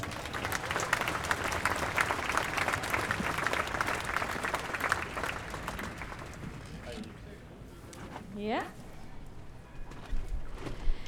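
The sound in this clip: Crowd applause at a Gaza demonstration welcoming an anthropologist speaker. Dense, steady clapping thins and fades after about six seconds, leaving quieter background noise.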